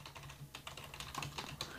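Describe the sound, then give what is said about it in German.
Typing on a computer keyboard: rapid, irregular keystrokes clicking steadily, fairly faint, with no talk over them. “Ich schreibe das jetzt mal auf Twitter.”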